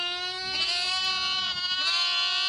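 Lambs bleating: a long, wavering, nasal bleat with a quavering pitch, clear and fairly loud, heard alone with no voices.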